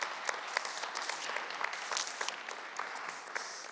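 Audience applause welcoming a woman to the church stage before she shares a testimony, a steady wash of many hands clapping at even loudness throughout, with no voices over it.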